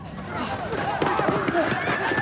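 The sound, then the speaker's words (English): A group of people running down an alley in pursuit, with a steady rush of hurried footsteps under excited shouting voices. “The entire gang has surfaced now and are in hot pursuit. They race down the alley after him.”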